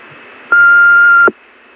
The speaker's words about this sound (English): Please leave a message at the sound of the tone that includes your name and telephone number.